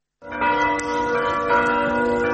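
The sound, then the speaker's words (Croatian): Serbian Orthodox church bells ring out in Cetinje, a struck bell tone starting abruptly and sustaining a rich, humming peal with steady loudness throughout. “Teško je danas ođen slušati ova zvona, a ne smiješ im prisustvovati.”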